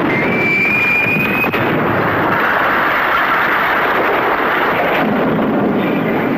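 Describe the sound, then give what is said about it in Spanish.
Cannon fired at a ship in a loud, continuous roaring blast that fills the whole stretch without separate, distinct shots, with a faint high whistle early on. “¿Quién disparó ese cañón? No lo sé, señor. ¡Vamos, deprisa! ¿Se disparó? Sí, pero le fallaste al barco.”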